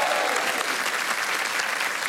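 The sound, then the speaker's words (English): An audience applauds the guests of a comedy panel show with dense, steady clapping that holds at an even, loud level throughout. “you need to put your hands together again for Ursula Karlsson, Mary Quartz, Em Luciano, and Jason Byrne.”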